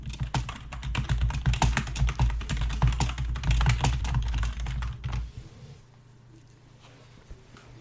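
Rapid typing on a computer keyboard as a message is written. Dense, loud, irregular key clatter continues for about five seconds, then stops abruptly, leaving quiet low background noise.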